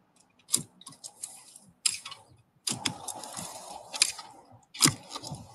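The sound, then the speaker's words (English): A spade digs a hole for a fence post, with several sharp, gritty strikes and scrapes into the ground spaced irregularly, and quieter scraping of soil between them. “And we'll start digging the hole. I'll dig this hole and then we'll show you what the next process is.”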